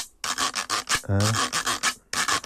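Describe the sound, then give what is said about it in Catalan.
A rasp percussion instrument is scraped with a split, chipped cane, giving many quick raspy strokes in a steady rhythm, with one longer, buzzier stroke near the middle. “I dues canyes. I se rasca amb una canya que està rompuda.”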